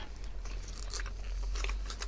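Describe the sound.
Crunching bites and chewing on a toffee-flavoured sweet, a few faint, crisp crunches sitting over a steady low hum.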